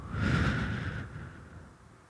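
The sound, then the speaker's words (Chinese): A single slow, deep breath is drawn as a soft, airy whoosh. It swells early, then gradually fades away alone. “可以是做几个深呼吸，吸，呼，”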